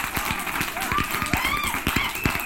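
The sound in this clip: Studio audience applause greeting a guest onto a show, a dense, steady patter of many hands clapping, with whoops rising above it.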